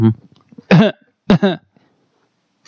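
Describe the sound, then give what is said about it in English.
Throat clearing by someone with something caught in their throat: a few short, harsh, rasping bursts separated by silence, with a faint sound at the start and another burst beginning right at the end. “No, I just had something in my throat. Yeah, okay. So I was trying to clear it.”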